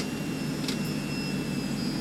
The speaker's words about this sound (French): Voilà, on monte. Et puis là, je vais réduire, ça. ça, je vais réduire la puissance du réacteur.